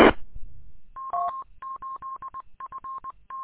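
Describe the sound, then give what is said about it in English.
Telephone tones from an incoming phone call: many short, evenly pitched electronic beeps in quick irregular bursts, following a brief loud rush of noise at the start. “Oh, got a phone call.”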